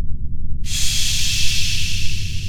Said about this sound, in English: Go slow. Take a deep breath.